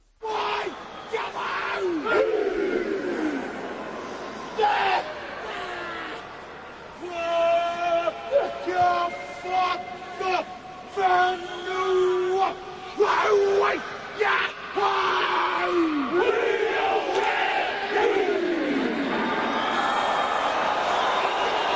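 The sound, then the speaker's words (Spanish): A rugby team performs a haka led by Piri Weepu: a lead voice barks commands and the players answer with loud unison chants and shouts in many rhythmic bursts, with crowd noise beneath. “suele ser un tipo que tenga ascendencia en el equipo el que lance a la jaca y da las instrucciones al resto del equipo para que salga a la jaca. Un tipo con peso, como Piri Wigbo, por ejemplo, ¿no? Por ejemplo, lo oímos.”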